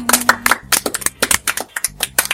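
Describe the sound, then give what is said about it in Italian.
Guests at a dinner gathering clap in a short, uneven burst, a series of sharp, separate hand claps rather than a dense roar. “Ragazzi, bentornati alla cena dei regini. Applausi.”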